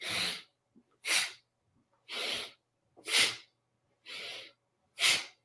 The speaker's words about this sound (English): We do a very rapid and forceful inhalation through the nose in and out. So I'll demonstrate it really quick.